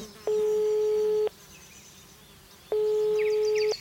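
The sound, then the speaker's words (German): Ringback tone of an outgoing phone call that goes unanswered and on to voicemail: two long, steady, mid-pitched tone bursts of about a second each, separated by a quiet pause. “Ich rufe ihn einfach mal an.”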